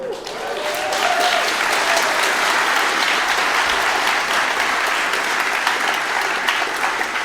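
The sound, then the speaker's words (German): An audience applauds at the opening of a talk at a large programming-night event: dense, steady clapping swells in during the first half-second, then holds loud and even to the end. “Wahrscheinlich 2 Jahre nicht in der Vorlesung oder im Vortrag gewesen, aber klatschen könnt ihr noch.”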